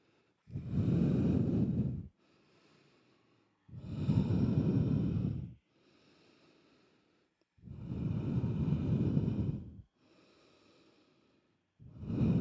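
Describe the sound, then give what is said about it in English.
Deep yoga breathing: long, loud, breathy rushes of air lasting well over a second each, alternating with much fainter breaths in a slow, steady, repeating rhythm, with no talking. “Take a long breath out, empty.”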